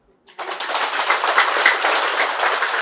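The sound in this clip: Audience applause breaks out at a Buddhist teaching on keeping the five precepts, starting abruptly after a brief silence and continuing as a dense, steady wash of clapping to the end.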